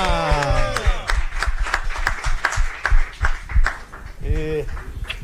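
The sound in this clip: A few people clap in a radio studio to welcome a new sports journalist. The claps are quick and uneven and mix with loud, overlapping voices.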